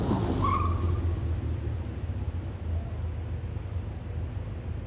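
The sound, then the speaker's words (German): A car arriving and pulling into a parking space, heard as a steady low engine rumble under a broad hiss of road noise that holds at an even level throughout, with no voices. “Da kommt dein Auto. Dafür ist ein Parkplatz da.”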